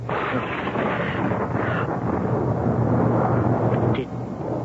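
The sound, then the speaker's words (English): Thunder crashing as a radio drama sound effect for lightning above the Capitol: a loud, sustained, rumbling roar that holds steady and then eases slightly near the end. “Did you see and hear that? See what? Above the Capitol. All shimmering with fire about him like a halo and great forked bolts of lightning shooting from his hands.”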